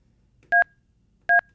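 Two telephone keypad tones as a number is pressed on a phone, each a brief, steady, dual-pitched beep, separated by under a second of near silence.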